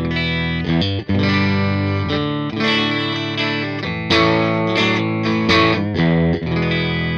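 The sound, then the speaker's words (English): Distorted electric guitar played through an amp the player finds boxy, with an EQ added at the very end of the signal chain; thick sustained chords ring with a brief cutoff near one second and short dips between strums. “I don't really care for that amp that much. It's just, it sounds too boxy to me. Not a big fan of it without some serious modifications to the circuit. So I put an EQ into it at the very end. And it kind of gives this sort of sound.”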